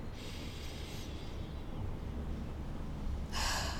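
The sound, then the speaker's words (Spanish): Slow, deep breathing during a relaxation exercise: a soft, airy breath, a quiet pause, then another hissing breath, faint and with no other sound. “Quiero que cierres tus ojos y que tomes tres respiraciones profundas. Inhales profundo. Soltes. Inhales profundo.”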